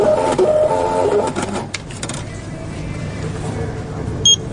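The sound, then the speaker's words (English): A lottery terminal prints a Powerball ticket with a buzzing mechanical whir that lasts a little under two seconds. The printing then stops and quieter background noise follows. “What's that sound? It's a sound of me buying a Powerball ticket.”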